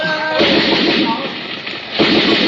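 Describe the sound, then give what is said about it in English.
Gunfire is shot into a cave as two heavy, booming blasts, the first near the start and the second toward the end, with a loud roaring rumble sustained between them. “They're having some kind of powwow about it. They're shooting into the cave. Stay down.”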